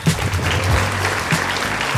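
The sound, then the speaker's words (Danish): Applause from the studio audience of a Danish game show, cheering on a contestant: two seconds of steady, thick clapping. “Giv lige stor hånd.”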